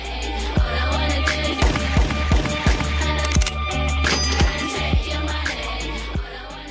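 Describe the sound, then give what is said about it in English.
Gunshot samples in a hip-hop song: sharp, cracking bangs repeat many times in rhythm over a heavy, sustained bass and dense music. “Finally, of course, we have those samples of the gunshots.”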